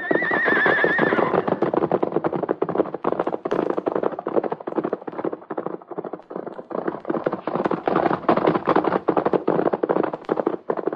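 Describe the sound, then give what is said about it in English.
A horse whinnies briefly at the start, then two milk-white horses gallop side by side, rapid hoofbeats pounding steadily and loudly to the end with no voices. “Like the wind, the white one and Sylvan race side by side. Two beautiful milk-white creatures, Sylvan and the prince, his son.”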